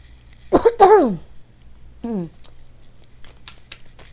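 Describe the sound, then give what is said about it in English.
Harsh coughing after nearly choking: a quick cluster of rough coughs, then a single shorter, voiced cough-like clearing a moment later, with faint small sounds trailing off. “Ooh. Excuse me. Damn near choke.”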